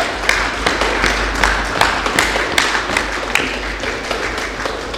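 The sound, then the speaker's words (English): A church audience clapping hands and stomping feet in praise, a loud, rhythmic run of sharp claps over dull low thumps that keeps a steady beat throughout, with no talk. “by giving a clap of praise and stamping of feet to Jesus. Again, I think this is safe. So if you can stomp your feet and clap your hands.”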